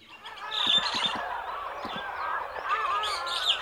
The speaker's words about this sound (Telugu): ఏం జరుగుతుంది ఇక్కడ? ఆ కాకి అక్కడ ఏం చేస్తుంది? హే, షూ షూ, నా చెట్టు మీద నుంచి వెళ్ళిపో వెళ్ళిపో.